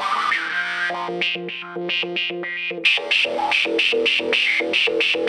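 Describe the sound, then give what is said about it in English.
Electric guitar through a Recovery Effects Phantom Operator pedal: a ringing chord breaks into rapid, choppy stuttering notes, heavily processed and distorted, turning brighter and denser about halfway through. “If I put the Recovery Effects Phantom Operator on there for fun.”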